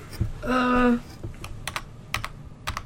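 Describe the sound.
Computer keyboard clicks advancing presentation slides during a school chapel service, a scattered run of sharp, light taps of uneven rhythm.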